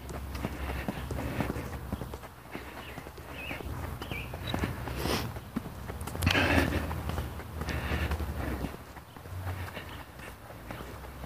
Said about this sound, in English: I'm here now. I'm walking.